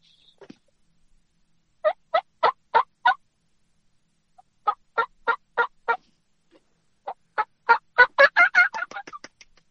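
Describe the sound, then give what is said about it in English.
Hen turkey yelps made on a turkey wing-bone call: two sets of five sharp, evenly spaced yelps, then a longer run that quickens into rapid, louder yelps, with nothing else heard. “But you just give a couple small yelps, and then it just gets quicker. It's almost like you pick up the pace with a yelp almost, but it sounds something like this.”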